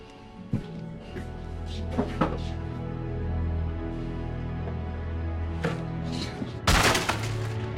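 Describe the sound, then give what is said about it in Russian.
A chair being smashed in an office by an angry man: a few sharp cracks and thuds ring out over a steady low hum, ending in a louder, harsh crashing burst near the close. “Команда видит, как Марш трощит стул.”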